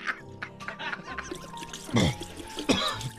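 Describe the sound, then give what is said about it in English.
Liquor glugs from a bottle and trickles down a drain, a few gurgling glugs with a thin stream of liquid, fairly soft and uneven. “Now I will pour the second bottle down the drain with, again, exception of one shot, which I will drink as I send it to its final reward.”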